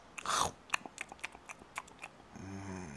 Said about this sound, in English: Hold on. Let me have a little nap snack.